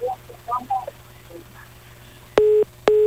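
A telephone busy tone after a dropped call: two loud, flat beeps follow faint, broken sounds from the line, over a low hum.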